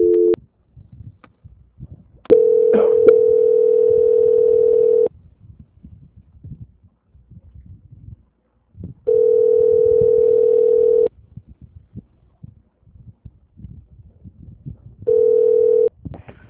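Telephone line tone during a call transfer: a few long, steady mid-pitched tones lasting several seconds each, separated by pauses that carry faint low background sound.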